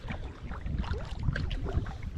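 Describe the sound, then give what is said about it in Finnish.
Paddling a canoe or kayak upriver on the Paimio River in cold, windy early-summer weather: steady rushing water and wind noise with soft, indistinct splashes, no voices. “Mä lähdin tällä kertaa melomaan Paimionjokeen ylöspäin.”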